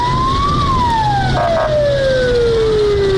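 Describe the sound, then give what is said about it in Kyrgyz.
A fire engine siren wails loudly as the trucks drive through streets disinfecting quarantined villages in Suzak district, its tone rising briefly and then gliding steadily down in pitch over a few seconds. “Ага өрт өчүрүү унаалары тартылып, көчөлөрдү кыдырып чыгышты.”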